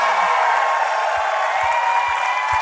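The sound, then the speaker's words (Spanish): Congregation applause fills a church, a dense, steady wash of clapping that holds level throughout, with a few soft low thumps beneath it. “ese fuerte aplauso al Señor, aleluya.”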